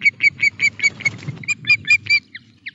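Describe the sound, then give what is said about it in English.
Ospreys calling at a nest with four eggs high in trees in southern Scotland, shared by a young male and two females. A fast, loud series of sharp, high chirps repeats evenly, broken by one short pause, over a low rumble. “There's lots of low-level vocalisation, and as one of the female ospreys feeds, the other settles onto the four eggs to keep them warm”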